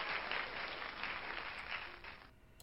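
Canned applause from a 'yay' button sound effect, a soft, steady wash of clapping that thins out and fades over the last half-second.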